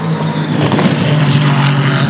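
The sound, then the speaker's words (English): LMP2 prototype race cars pass nose to tail, a loud, continuous engine roar with steady droning tones and no clear gaps between the cars. “Three cars just went through nose and tail. Those LMP2s pop.”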